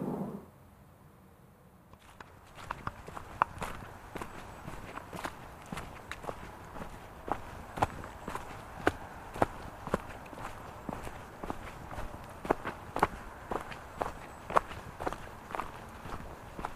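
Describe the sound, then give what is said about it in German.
Footsteps walking downhill through a forest toward Hirsau in late October: many quiet, steady steps in a regular rhythm that begin after a short near-silent pause and continue alone to the end. “Ich gehe jetzt mal weiter. Ich müsste jetzt euch dann nur noch bergab, hoffe ich, und bin dann in Hirsau.”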